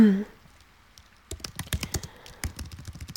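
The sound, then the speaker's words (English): Typing on a computer keyboard: a brief voice at the start, then a quick, uneven run of many crisp keystrokes. “I need to type, okay.”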